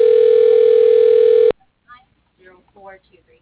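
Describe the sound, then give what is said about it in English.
A steady, single-pitched telephone tone plays loudly while a call is transferred, then cuts off abruptly, followed by brief, faint voice fragments. “Please hold while your call is being transferred.”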